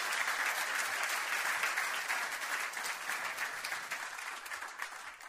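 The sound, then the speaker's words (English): A church audience applauds to welcome a pastor to the stage with dense, steady clapping that holds throughout and eases slightly toward the end. “would you give a nice, warm Christ Walk welcome to Pastor Shannon Eaton?”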